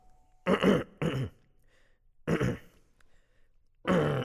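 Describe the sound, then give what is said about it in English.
A man clearing his throat several times, four rough, gravelly bursts separated by short pauses, each loud against near silence, with no speech. “The professor cleared his throat a couple of times, as though about to speak, and finally said,”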